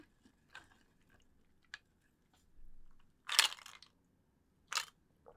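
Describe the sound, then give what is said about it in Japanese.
Peanuts being chewed: a few sharp, crisp crunches come at irregular intervals with quiet gaps between them, and no talk. “ピーナッツいただきます。うまっ。”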